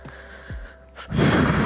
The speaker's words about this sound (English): I'm trying to, like, breathe in, breathe out as calm as possible.